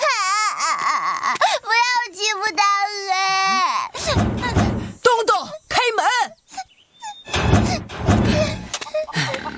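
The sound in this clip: A child cries loudly in wavering, sobbing wails for the first few seconds. Several sharp thumps and noisy bursts follow.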